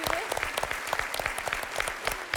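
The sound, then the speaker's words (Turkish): A group applauds during a points-based quiz activity, with dense, continuous clapping that holds at an even loudness throughout. “Hadi alkışlıyoruz arkadaşlar.”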